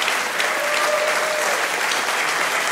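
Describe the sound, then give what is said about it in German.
An audience gives a performer a loud, sustained round of applause on her arrival at the stage; the dense, even clapping carries on without pause. “Bitte begrüßt mit einem fulminanten Applaus die wunderbare Anka Zink.”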